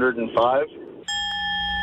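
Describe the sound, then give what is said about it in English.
A bell rings with one bright, sustained tone and steady overtones. It follows a brief stretch of a voice speaking, then holds evenly at moderate loudness to the end. “Like to hear the bell.”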